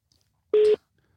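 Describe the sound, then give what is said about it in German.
Telephone call tone while calling someone: a single short, steady mid-pitched beep, loud and alone in near silence. “Der Usti ist übrigens fertig und wir können ihn anrufen. Das machen wir direkt wieder.”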